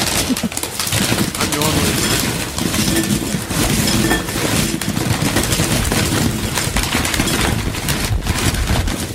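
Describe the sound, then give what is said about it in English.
Chips poured into a bowl as a fun sound effect on a radio show, a dense, continuous crunchy rattle and clatter of many small pieces that keeps going for about nine seconds. “It's chips in a bowl. It's the sound of fun on a was show.”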